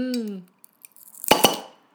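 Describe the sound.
A bottle of Braustübel beer is opened, foaming over: sharp clicks of the cap followed by a brief gassy hiss, with a voice just before.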